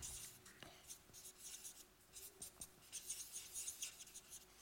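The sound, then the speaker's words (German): A marker draws a line from top to bottom through a circle on a board, then writes beside it: faint, squeaky scratching strokes in irregular bursts. “Also ich trenne mal, ich male jetzt hier mal ein einen Strich von oben nach unten durch den Kreis und schreibe auf die rechte Seite jetzt geistliches Erleben.”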